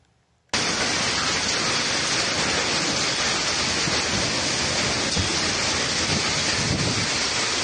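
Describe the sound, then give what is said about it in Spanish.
Wind and torrential rain from a category 3 hurricane striking Baja California Sur: a loud, dense, unbroken roaring rush that starts abruptly after a brief quiet moment and holds steady without letup. “el huracán Polo pasó por Baja California Sur como un poderoso ciclón de categoría 3, desatando vientos de hasta 150 millas por hora, lluvias torrenciales y oleaje de hasta 33 pies.”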